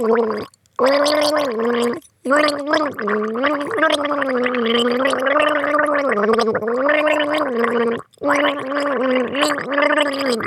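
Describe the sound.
Person gargling a song, a bubbling, voiced melody carried through water in a few sung phrases separated by brief pauses, with no speech.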